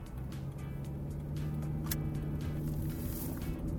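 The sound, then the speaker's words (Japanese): Car traffic on a main road makes a steady, low droning rumble of engine and tire noise, picked up by a microphone. It holds at an even, moderate level for the whole stretch with no voices. “よし、じゃあ本線に入ります。本線に入った時にね車の音だけを拾うんだよね。”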